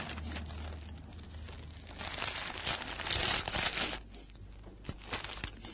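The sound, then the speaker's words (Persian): Rustling and crinkling as a bag is opened and a paper envelope is pulled out. The soft, continuous crinkle of paper grows busier and louder in the middle, then tapers off with a few faint clicks. “نرگس کیفشو باز میکنه و پاکتی از اون در میاره.”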